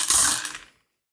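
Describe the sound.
Dice rolled during a tabletop role-playing game make a brief clattering rattle that fades out in under a second, heard alone.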